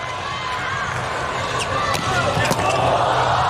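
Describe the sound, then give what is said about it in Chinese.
Volleyball serve by Slovenia that lands as an ace for first-set point: a few sharp ball impacts stand out over steady crowd noise, with commentators talking throughout. “哇，这个真是敢发呀！ 是的 ，ace 球帮助斯洛文尼亚队拿到了第一局局点。”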